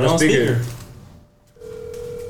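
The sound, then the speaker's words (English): A phone call on speakerphone: voices talk briefly, fall quiet, then a steady electronic ringing tone starts and holds. “Oh my God, I hope she don't answer this damn call.”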